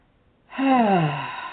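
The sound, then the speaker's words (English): A deep breath released through the mouth during a guided breathing moment, a single long, voiced, sighing exhale that starts after a brief silence and slides downward in pitch. “So let's just take one more conscious breath together, in and out the mouth,”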